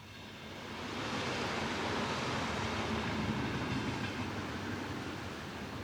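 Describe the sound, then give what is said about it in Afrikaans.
A train at a railway station gives a dense, steady rumbling roar that swells during the first second and then holds level throughout. “Aktiwiteit 6. Aankondigings by die stasie.”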